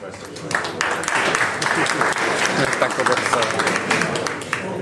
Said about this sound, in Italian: invece applauso alla nuova amministrazione